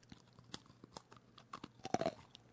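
A hard pressed-sugar sweet, moulded with a bumpy pattern, is bitten into. A few faint clicks come first, then a short, sharper crunch near the end.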